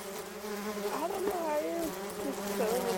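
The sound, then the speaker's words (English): Honeybees buzz quietly in a steady drone, the hum wavering up and down in pitch as individual bees fly past. “I think these are Canadianized honeybees.”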